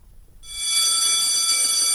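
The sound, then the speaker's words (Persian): A school bell rings with a loud, steady, high-pitched electric tone. It starts after a brief quiet moment and then sounds without a break to the end. “صدای زنگ مدرسه شاید برای بسیاری خاطر انگیز باشد”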